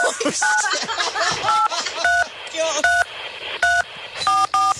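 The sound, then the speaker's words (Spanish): Telephone keypad tones sound as a phone number is dialed to order roast chicken. Several short, clear beeps come in an uneven rhythm, with people talking between and under them. “Así que vamos a marcar, por favor.”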